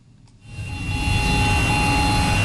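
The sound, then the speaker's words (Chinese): A loud, steady engine roar rises in over the first half-second and holds. It comes from two high-horsepower tractors pulling electronically controlled precision seeders while sowing a field, with deep low rumble and a thin, constant high whine. “在北大荒集团鹤山农场第七管理区，两台大马力机车牵引着电控精量播种机，抢抓农时，加紧进行播种作业。”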